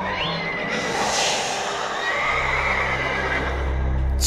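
Loud, drawn-out whinny of a magic horse after a leap in a storybook scene, the neigh shaking and wavering over a low background rumble, with no talk.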